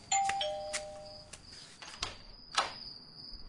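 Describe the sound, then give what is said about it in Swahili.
A doorbell rings in a tense living room, giving a bright electronic chime of a few sustained tones, fairly faint, with soft clicks and rustles around it and no talk. “Jennifer yuko sebuleni akiwa katika hali ya taharuki, na ghafla kengele ya mlangoni inalia.”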